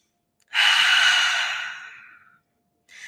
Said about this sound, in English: we're going to ground in a little bit. We're going to take a little breath. I invite you to breathe with me.